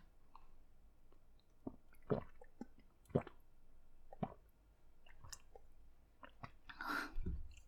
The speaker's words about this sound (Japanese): 待って、ちょっと待って、お水飲んでいいですか？お水飲みます。